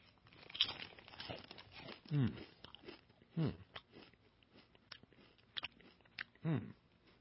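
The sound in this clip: Chewing and crunching on a cheese and beer flavored snack with a lager taste: a few faint, crisp bites spaced out, with softer mouth noises and quiet chewing between them.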